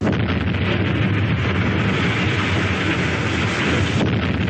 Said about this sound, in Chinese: 这是当时袁庚委托珠江电影制片厂录制的开山炸土方的炮声原声